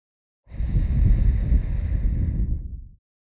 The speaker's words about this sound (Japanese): 梵天終了。じゃあ、また息かけるね。